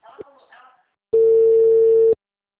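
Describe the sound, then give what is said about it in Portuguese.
A telephone busy tone sounds after a phone call drops: one steady, mid-pitched electronic tone that holds at an even, loud level for about a second and then cuts off abruptly into silence. “a ligação caiu. Caiu.”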